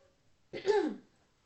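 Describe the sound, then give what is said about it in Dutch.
A single short, throaty cough with a rough, gravelly burst that fades within half a second, standing alone against near silence. “Ah, uw hoest was beter dan uw Ja.”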